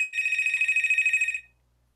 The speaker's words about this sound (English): Who the hell is that? That drug dealer phone? That's my house phone.